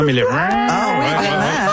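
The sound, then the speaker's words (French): A cow's moo, used as a sound effect standing in for a cat's cry: one loud, low, drawn-out bellow filling the whole clip, its pitch wavering up and down as it sustains. “Mon chat sonne comme une vache.”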